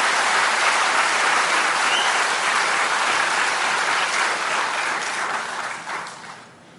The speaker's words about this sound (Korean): 박수 치고 싶은 많은 건 한 번만 칩시다.